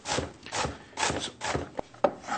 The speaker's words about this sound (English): And again, for chopping it up fine, we do the same thing. Chops it up beautiful, nice and fine.